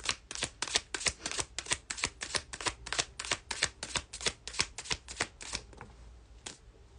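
Tarot cards being shuffled: many crisp, rapid riffling slaps in quick succession, then a few softer handling sounds as the shuffling eases near the end.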